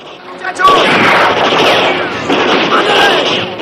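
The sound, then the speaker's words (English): A gunshot fired from a wall during a fight, a sudden loud burst just after the start that gives way to a sustained rough rumble and crackle that swells again near the end. “One of Ira's men is shot from the wall.”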